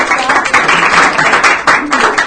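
Applause for a lighting technician after a stage show: a short stretch of clapping from a small group, with uneven bursts and dips in loudness.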